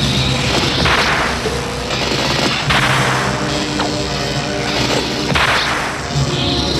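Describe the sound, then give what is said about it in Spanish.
A crimson red whip lashes a hero's back, giving a few sharp cracks that stand out over a dense, loud bed of noisy sound. “Evil-Lyn sonríe mientras el mercenario agita un látigo rojo carmesí azotando la espalda del héroe.”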